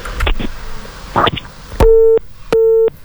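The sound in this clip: A telephone busy tone sounds after a call disconnects: two long, steady, evenly pitched beeps separated by a short gap, following a brief burst of indistinct noise.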